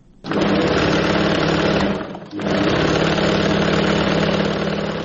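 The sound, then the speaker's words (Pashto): Steady motorized whir of a tailor's sewing machine in Kabul, running loud and continuous, then cutting out briefly near the middle before starting up again and running to the end. “د مشرق الله د خیاطۍ د ماشین غږ دی”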